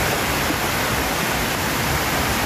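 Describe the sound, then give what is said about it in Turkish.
A creek swollen by a downpour rushes and overflows, flooding houses and barns in Erzurum's Oltu district, heard as a loud, constant roar of churning water with no breaks. “Sağanak'la birlikte Dümbüllü Deresi'nin debisi yükseldi. Taşan dere nedeniyle bazı evler ve ahırlar su altında kaldı.”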